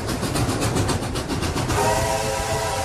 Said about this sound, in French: C'était sûr que c'est l'Orient Express ? C'est un train.